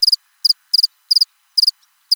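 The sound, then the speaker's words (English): Cricket chirping sound effect: six short, high-pitched chirps, each made of two or three rapid pulses, repeat at a steady, even rhythm with silence between them and no talk. “Cricket.”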